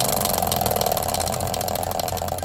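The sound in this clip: A prize wheel of words is spun, giving a steady, fast, rattling tick that runs loudly and evenly through the whole clip.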